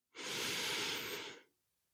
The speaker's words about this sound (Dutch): Dus sta even recht en we gaan eventjes in en uit ademen.